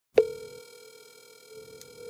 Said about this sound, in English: Okay, so I'm going to dial her up.